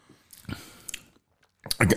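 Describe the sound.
Crunchy chewing and biting of a matcha tea-flavoured snack from a tin, with a few separate bursts of crunching between short pauses and the loudest crunches at the end.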